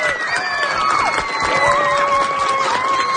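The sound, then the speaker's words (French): An audience loudly cheers and applauds for three school pupils. The crowd noise is continuous, with high-pitched children's shouts rising above it throughout. “Et là, moi, je veux qu'on applaudisse vraiment très fort les trois élèves qui nous ont envoyé des très, très bonnes questions.”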